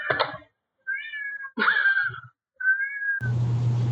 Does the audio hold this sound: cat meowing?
yes

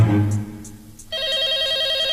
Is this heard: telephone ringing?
yes

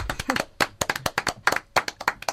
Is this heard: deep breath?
no

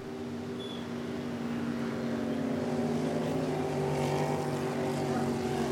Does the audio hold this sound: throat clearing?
no

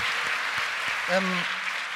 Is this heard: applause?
yes

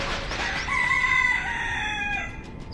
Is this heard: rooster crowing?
yes

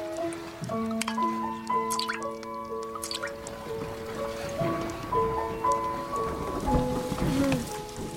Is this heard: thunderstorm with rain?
yes

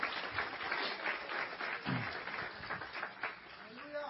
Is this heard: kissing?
no

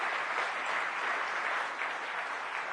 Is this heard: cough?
no

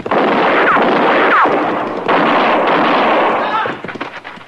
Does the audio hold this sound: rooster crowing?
no

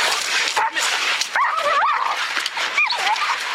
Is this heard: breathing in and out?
no

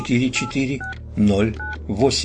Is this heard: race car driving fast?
no

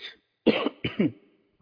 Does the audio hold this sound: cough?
yes

